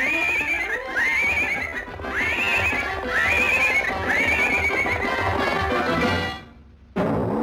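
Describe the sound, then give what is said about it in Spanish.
A cartoon horse whinnies again and again over the steady clip-clop of hooves as it is walked step by step toward the stable. Its calls rise and fall in a loud, repeated series, then the sound fades away. “Un jinete de experiencia siempre lleva a su caballo paso a paso hacia el establo.”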